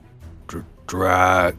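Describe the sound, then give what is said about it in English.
A voice imitates a creature groaning as it begins to stir on a throne. A short guttural grunt is followed by a longer, low, strained groan. “You see the creature in the throne begin to move. And you all hear it groan.”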